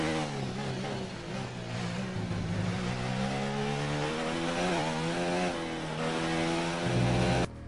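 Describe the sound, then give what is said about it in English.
Racing car engines scream through the first race of a season in a racing video game, a continuous high-revving buzz whose pitch wavers as the cars accelerate and lift, loud and without talk. “First race of the season. I just thought I'd let you see the actual race.”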